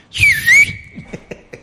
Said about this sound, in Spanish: Sí, nosotros silbamos, aprendimos de muchachos a silbar. Sí, y a chiflar también.